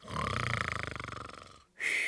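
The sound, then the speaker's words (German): A person snoring gives one long, rough, rattling breath made of rapid pulsing vibrations at a steady loudness. It cuts off abruptly and is followed by a short, different, higher sound. “Du sollst nicht schnarchen.”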